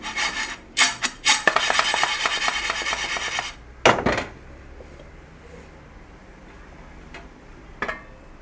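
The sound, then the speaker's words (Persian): A pot of popping corn is shaken on a switched-off stove, giving a loud, dense scraping rattle for several seconds. It then quiets, with a few sharp knocks scattered through the remaining stretch. “یکی دوتا ذرت باز شدم. یه تکون میدیم.”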